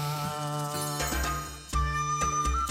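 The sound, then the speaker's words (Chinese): A WeChat notification chime rings out as a few bright, tinkling tones, layered over steady musical tones. “微信叫你要干要干嘛呀”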